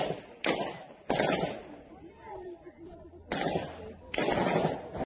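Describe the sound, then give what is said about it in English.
Four loud bursts of automatic gunfire as armed terrorists fire on civilians in a Moscow theater, sharp rattling volleys separated by quieter gaps. “Video shows armed terrorists open fire on civilians in Moscow. Here we have another angle from the theater scene.”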